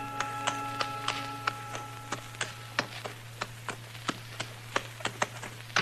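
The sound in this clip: Hoofbeats of a tall, thin horse carrying a rider up the trail: many sharp, evenly spaced clops in a steady walking rhythm over a low constant hum, with no voices.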